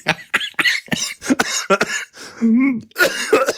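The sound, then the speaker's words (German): Someone coughs after choking on something swallowed: a rapid string of harsh coughs and throat-clearing, broken by strained, voiced gasps, loud and uneven throughout. “Das habe ich verdient. Ich habe mich verschluckt.”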